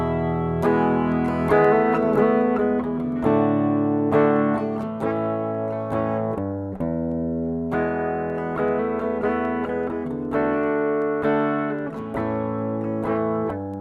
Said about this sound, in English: I'll play the chord progression that's in my mind first. What we're going to do is hold down an E, but I'm going to be playing along to a progression that sounds like this.